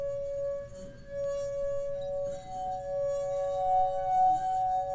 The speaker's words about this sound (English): You wet your finger and run it around the rim of the glass. At first, nothing happens. Then, when the vibrations caused by your finger hit just the right level, the glass begins to sing with this full pulsating note.